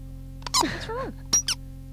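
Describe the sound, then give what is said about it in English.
A Halloween toy ghost pops out of a plastic pumpkin, letting out two bursts of high, squeaky chirps: the first longer and warbling, the second short and sharp, over a faint steady hum. “Well, it's merely the sound of a little ghost popping out of a plastic pumpkin.”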